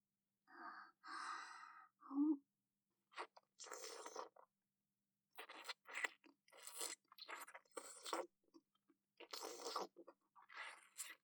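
Someone eating, with crunching and chewing: many short, crisp bursts in an irregular rhythm, separated by brief pauses and growing busier in the second half.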